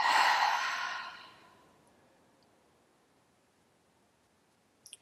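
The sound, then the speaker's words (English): A deep breath is let out through the mouth as a long, breathy exhale. It is loud at first and fades away over about a second and a half, leaving near silence and a faint click at the end. “So first, I'm going to take a deep breath in and then let it go out of my mouth.”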